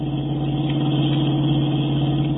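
A car speeds up while weaving across a road, a steady droning engine hum with a strong low tone that holds evenly throughout.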